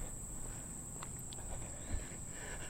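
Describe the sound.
Footsteps of a person running on a trail, faint and steady, with soft padding impacts blending into constant background noise and one slightly stronger step near the end.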